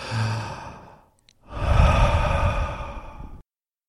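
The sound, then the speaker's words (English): A deep breath taken to center oneself during guided relaxation: a soft, airy inhale, a brief pause, then a longer, fuller exhale that carries more breath noise, with no talking. “Relax the body. And just take a deep breath to center yourself.”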